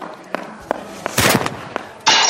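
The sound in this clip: Browning pistol gunshots in a hall, heard as several sharp, fairly faint pops spaced unevenly, with a brief cluster in the middle and a louder burst at the end.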